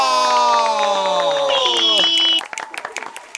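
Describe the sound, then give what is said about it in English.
Live studio audience cheering with drawn-out whoops, then breaking into a scattered patter of claps over the final second. “Whoa. I love all the applause. Is that really like a live audience, or is there like a button? It is a completely live audience.”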